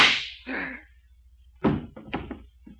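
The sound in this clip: A revolver fires in a radio drama, a sharp crack at the start that fades quickly, followed later by a few heavier thumping impacts.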